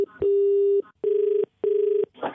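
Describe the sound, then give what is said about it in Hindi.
Keypad button tones from a phone in someone's pocket, its buttons pressed accidentally and repeatedly: three steady, loud beeps, each about half a second long with short gaps, then a brief noisy rustle at the end. “तेरी जेब में phone रखा होगा, वो button दबा होगा बार बार।”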